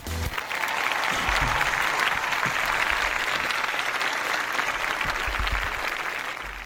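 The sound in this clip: An audience breaks into applause to greet a special day, a dense, even wash of clapping that holds steady for several seconds and then eases off slightly at the end.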